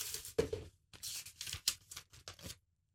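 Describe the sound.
A paper note is drawn and unfolded. It makes quiet, crisp rustling and crinkling in several short bursts separated by brief pauses, then falls silent.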